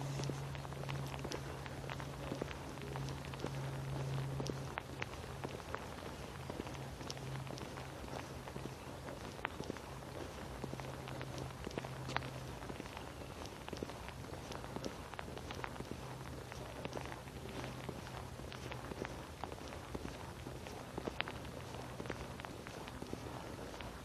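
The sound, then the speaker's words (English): Footsteps of a person walking hunched over while wearing a heavy parka, a long run of soft, quiet steps in a steady rhythm that continues throughout over a faint low hum. “Walking hunched over like this is not fun. And this parka is way too warm.”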